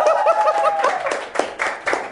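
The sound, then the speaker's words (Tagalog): A group claps at the opening of a showbiz chat show, a loose run of uneven claps. A brief voiced sound comes before the clapping. “Clap your hands, everyone!”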